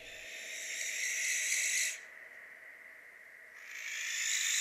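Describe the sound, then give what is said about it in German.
An owl's call, heard as a long, harsh, breathy hissing screech that stops and then resumes after a brief quiet gap. “Eule verweist auf die heulenden Rufe.”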